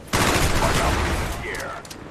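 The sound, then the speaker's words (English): Machine gun fire in a first-person shooter video game: a dense, loud burst of rapid shots and booming impacts that continues throughout and eases off slightly toward the end. “that's a lot of machine gun fire right there”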